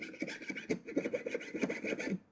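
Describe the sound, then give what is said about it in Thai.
A jeweler's fret saw cuts through silver sheet along a curved outline. Rapid, rasping back-and-forth strokes keep a steady rhythm at low volume and fade out at the end, with no talking. “ฉลุไปเรื่อยๆนะคะจนฝ่าเนื้อเงินหรือแผ่นเงินที่เราตัดออกนะคะจะหลุดออกจากตัวชิ้นงานเลยค่ะ”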